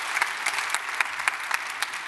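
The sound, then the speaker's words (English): Audience applause welcoming online viewers: dense, steady clapping from a crowd, with a few sharper individual claps standing out at a regular pace throughout. “Would you help me by applause just welcome all those that are joining us all over the world, actually.”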